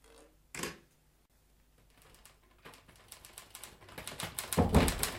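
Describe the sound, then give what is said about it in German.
Clacking keystrokes on an office typewriter begin after an isolated early thump. The keys start sparse and quiet, then grow faster and louder into dense, rapid typing by the end. “Sie haben eine Schreibmaschine gefunden? Die habe ich mir aus Mr. Napiers Büro geholt.”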